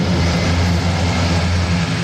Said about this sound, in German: Ein großes, graues Transportflugzeug mit lauten Propellern hebt ab.